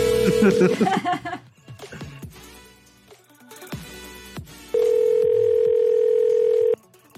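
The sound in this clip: A phone's outgoing-call ringing tone sounds as one loud, steady, unbroken tone lasting about two seconds. Before it comes a stretch of busier sound with a voice and shifting tones.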